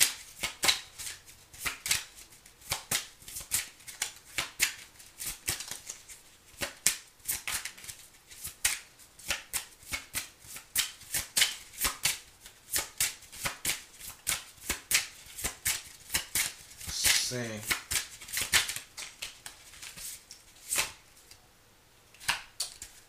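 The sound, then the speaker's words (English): Tarot cards shuffled for a reading give a long run of crisp, rapid riffling clicks and snaps. The dense bursts continue steadily throughout, with no one speaking. “Could be a friend, could be a family member. May I have another card”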